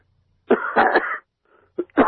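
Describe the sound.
Choking coughs and throat clearing from a man, a few harsh bursts packed together, a faint pause, then two more sharp coughs at the end.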